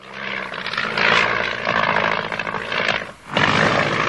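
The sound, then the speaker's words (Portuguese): A herd of elephants in a film scene makes a loud, continuous roaring rumble of broad noise that briefly drops away near the end, then surges back. “uma manada de elefantes”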